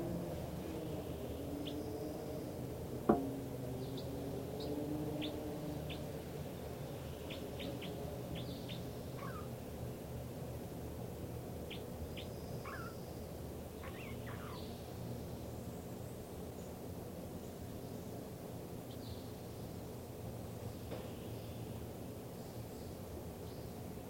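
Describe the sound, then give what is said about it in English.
A bird's song is heard as scattered, faint, high chirps and short whistled notes that recur throughout. They sit over a steady hiss and a low rumble. “This recording now, this is the song of bird 305.”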